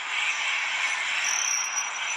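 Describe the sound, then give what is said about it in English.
Crickets chirp in a dense, steady chorus in a tropical setting. A continuous high shimmering trill holds at an even level throughout, with no voices. “Those are some beautiful crickets.”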